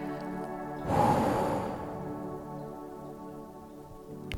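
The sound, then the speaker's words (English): A long, deep exhale through the mouth during a guided breathing exercise: one strong rush of breath that starts abruptly and then slowly tapers away over a couple of seconds. “And then exhale through your mouth with a long, deep release of air. Exhaling through your mouth.”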